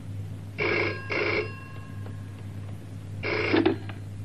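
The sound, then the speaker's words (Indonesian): A telephone bell rings in two quick bursts, then falls silent before ringing again, with a steady low hum running underneath and no talk. “Saya baru terima telepon dari Jeng Mary.”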